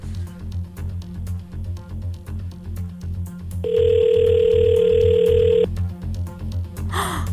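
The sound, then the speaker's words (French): An outgoing phone call rings back with one steady, even tone lasting about two seconds, sounding over continuous background music with no voices. “On va voir si ça sonne, première des choses. Ah, ça sonne. Déjà, c'est une bonne, nouvelle.”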